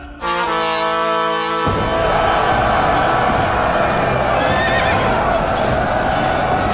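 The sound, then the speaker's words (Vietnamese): A horse spurred toward battle outside a besieged city lets out a loud, drawn-out whinny, followed by continuous rumbling clatter of hooves and noise with high squealing tones. “Lý Tướng Quân nhấc đại đao lên, xoay dài vòng gạt phăng tên đi, thúc ngựa chạy về trận.”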